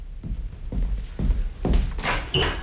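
A door is opened for a visitor: a few dull thuds come first, then a brighter clatter and swish of the door near the end.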